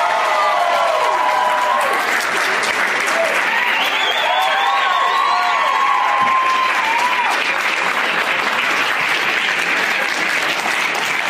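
A comedy audience applauds and cheers as three comedians come on stage, loud, continuous dense clapping with whistles and shouts rising through it.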